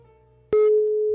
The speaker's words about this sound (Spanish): Pues ahí le estoy marcando, a ver qué pasa.